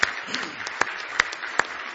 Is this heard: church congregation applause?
yes